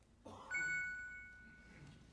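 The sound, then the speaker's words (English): A gentle warning tone marks one minute of speaking time left for a panelist: a single soft, clear chime that sounds once and slowly fades on its own, with no voices. “As they approach the six-minute mark, in order to provide them with a warning that their time is running out, they will hear a tone that sounds like this.”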